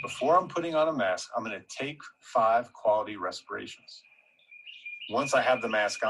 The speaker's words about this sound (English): Do you hear the bird chirping in the background?